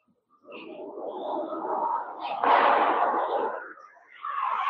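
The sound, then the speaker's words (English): Loud bangs from fireworks or gunshots: a few booming bursts with a rolling, noisy decay that fills the gaps between them. “I don't know if that was fireworks or gunshots.”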